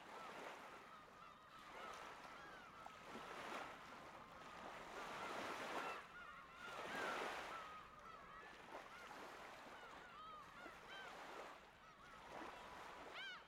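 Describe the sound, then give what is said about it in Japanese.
Ocean waves roll in slow, rhythmic surges, each swell rising to a soft rush and then fading back. The sound is faint and continuous, with several waves breaking one after another. “海の音とか、カモメの声とか聞きながらさ。”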